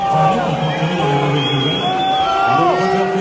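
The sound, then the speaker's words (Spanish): The tennis crowd at Paris-Bercy reacts to news of Nadal's withdrawal through injury. A loud, sustained mass of voices swells with drawn-out calls rising above the general din. “Pues así se lo ha tomado el público del París-Bercy al saber que no iba a ver ni a Nadal ni tampoco a Federer por lesión de su rival.”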